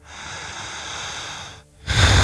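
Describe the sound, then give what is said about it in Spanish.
Strong, slow, deep breathing: a long, loud, airy breath fades into a brief pause, then a second forceful breath begins even louder. “Lento, hondo. Lento, potente. Una respiración exagerada, poderosa, portentosa. Una respiración vigorosa.”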